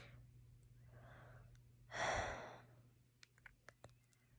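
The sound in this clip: Slow breathing close to the microphone: a soft breath, then a long exhale swelling into a loud breathy rush and fading, followed by a few faint mouth clicks over a low steady hum.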